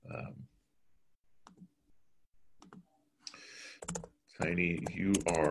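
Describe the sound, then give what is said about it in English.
A computer keyboard is typed on: a few faint, sparse key clicks with short pauses between them, then a brief burst of talking. “But here, let me just type it just for convenience so everybody has it.”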